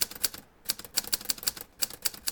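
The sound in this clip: A typewriter typing out a letter: many sharp, crisp key clacks in quick, uneven runs broken by brief pauses, with no voices.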